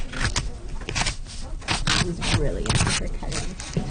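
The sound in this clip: A child cutting with scissors during a library craft session, a series of crisp, rasping snips in an uneven rhythm, with talk faintly underneath.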